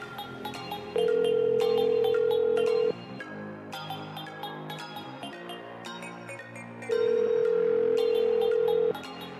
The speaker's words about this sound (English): Answer the phone.